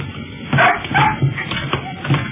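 A dog barks and yips in a few short, sharp bursts over a steady low background while people board an aircraft.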